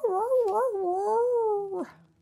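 One long howl, as from a dog at night in Rome, wavering at first and then holding a steady, drawn-out pitch before it breaks off abruptly.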